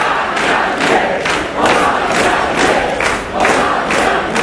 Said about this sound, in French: Voilà les supporters de Jean-Luc Mélenchon qui scandent « On a gagné ».